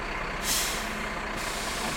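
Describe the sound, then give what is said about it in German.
A fire engine with a large turntable ladder rolls into a yard. A steady heavy engine rumble carries a roughly one-second burst of hissing air brakes early on, with no voices. “Und deshalb bin ich ziemlich aufgeregt, als vielleicht das most iconic Feuerwehrpiece schlechthin auf den Hof rollt. Das Fahrzeug mit der großen Drehleiter.”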